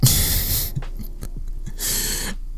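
A little girl panting heavily: two long, loud rushes of breathy air with a quieter stretch of low rustling and soft breath noises between them.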